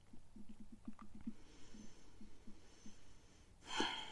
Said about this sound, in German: Und dann atme einmal tief aus.